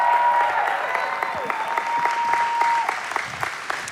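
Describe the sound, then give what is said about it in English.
An audience applauds continuously as a pastor's daughter is welcomed onto the stage at a church women's event. The dense clapping holds steady throughout, with no voices rising above it. “I get to welcome up my beautiful, talented daughter, Shannon. Give her a hand.”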